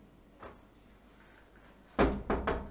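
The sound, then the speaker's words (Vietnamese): Knocking on a gate door: one faint knock, then a closer-spaced group of three louder, solid knocks. “Lúc này ngoài cổng đột nhiên vang lên tiếng gõ cửa.”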